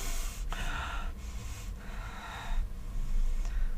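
Heavy, ragged breathing from a distressed person trying to calm down, with a few rough breaths in a row at moderate loudness.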